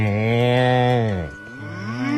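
Cattle mooing: one long, steady, resonant low moo lasting over a second, then a brief dip and a second moo rising in pitch. No talk.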